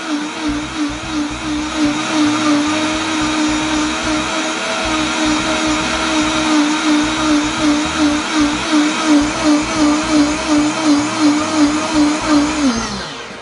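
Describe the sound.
A blender grinds a green drink with a loud, steady motor whine and a fast pulsing churn. The motor's pitch drops away as it shuts off at the end.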